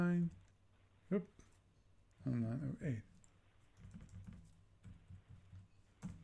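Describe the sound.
Computer keyboard typing as orders are entered in a game, a quiet run of light, quick key clicks following stretches of talk.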